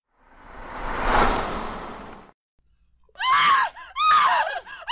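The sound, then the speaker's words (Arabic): A woman screaming outside: a swelling rush of breathy noise gives way to two loud, shrill, wavering screams separated by a brief gap. “كنت في الحمام عندما سمعت الصرخة الأنثوية بالخارج. لم تكن صرخة سلمة، لكني على الأقل أعرف أنها صرخة أنثى تذبح أو تنتزع عيناها.”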